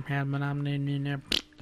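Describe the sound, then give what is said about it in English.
A voice imitates fart noises: a sustained, buzzing vocal tone broken into several pulses, then one short, sharp burst. “throwing a couple of fart noises”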